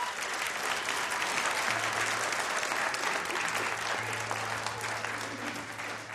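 An audience at the Red Barn applauds to welcome a bluegrass band. The clapping is steady and sustained throughout, a dense even patter with no break.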